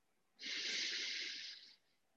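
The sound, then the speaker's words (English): A single steady exhaled breath during a relaxation exercise, a soft airy hiss lasting over a second that swells in quickly and fades out, heard alone. “and then exhale. Move your back and your spine.”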